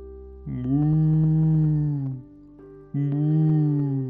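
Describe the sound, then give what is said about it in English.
A human voice imitates a cow mooing with two long, low, droning moos, the first held for nearly two seconds and the second starting after a short pause, with no other sounds. “But it just sounds like moo. So the cow”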